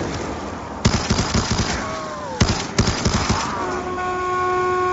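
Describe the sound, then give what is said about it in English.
Rapid bursts of RPD light machine gun fire in a video game: a few short volleys of sharp, repeated shots separated by brief pauses, loud over a steady background hum. “This RPD is good.”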